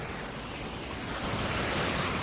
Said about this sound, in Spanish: Ese cauce, que habitualmente está seco, a esta hora lleva agua.